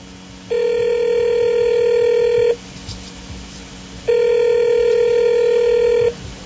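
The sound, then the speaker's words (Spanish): Telephone ringback tone from an outgoing call: two long, even rings, each about two seconds, separated by a pause of similar length. The steady buzzing tone is fairly loud and plays alone with no talk. “Voz Populi logró conseguir la grabación de la llamada que le hizo Petro a Peñalosa. ¿Quieren oírla? A ver. Aquí está. Oigan esto.”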